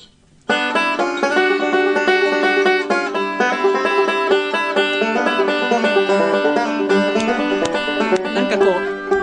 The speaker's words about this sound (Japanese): 今日バンジョーもスタジオにお持ちいただきました。 そうですね、 はい、もうブルーグラスには必然的な楽器だと思うんですけれども。